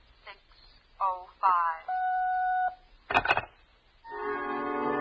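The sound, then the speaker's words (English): Telephone dialing to reach a time service: a few short tone blips, then a steady electronic tone, a sharp crackling burst and a sustained buzzy tone at the end. “I wasn't sure my watch was right, so I dialed for the correct time.”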